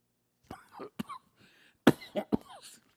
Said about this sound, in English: excuse me, I swallowed the wrong way.